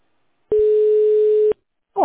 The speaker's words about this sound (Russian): У меня почему-то гудки идут, как будто у вас звонок второй идет.